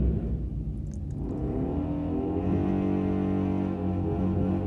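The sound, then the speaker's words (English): A car doing a burnout as it leaves a beach: a loud, sustained engine roar that revs up, its droning pitch climbing after about a second and then holding steady. “Wow, that's really loud, so we'll give that a second. Oh, I think they're trying to like be cute and do a burnout as they leave the beach.”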